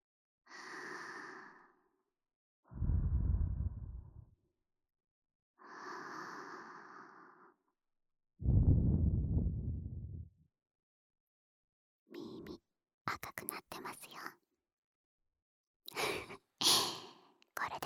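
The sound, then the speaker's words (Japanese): Gentle breath blown softly into the ear, two long airy puffs of a second or two each, set between quiet whispering and a few small mouth clicks. “そんな先輩のためにもう一回ふうふうしてあげますね。”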